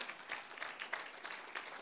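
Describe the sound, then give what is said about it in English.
Church audience clapping their hands during a sermon, a faint, steady patter of many hands with no break over a couple of seconds. “Clap your hands, somebody.”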